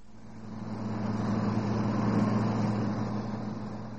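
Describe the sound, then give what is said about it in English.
Engine drone of a car being driven fast, a steady low hum of constant pitch that swells gently in loudness and then eases slightly. “So why do you want to drive, and so fast?”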